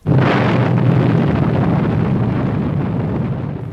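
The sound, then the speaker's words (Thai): A deep, roaring atomic bomb explosion sound effect, evoking the 1945 Hiroshima bombing. It bursts in suddenly and loud, then holds as a dense, rumbling roar that slowly fades over a few seconds. “การทิมระเบิดที่ฮิโรชิมาแล้ว”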